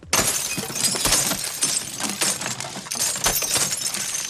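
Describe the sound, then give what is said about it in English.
Window glass shatters when struck with a cane, a sudden loud crash followed by sustained crunching and tinkling of fragments with a few further sharp impacts. “He shatters a window with his cane.”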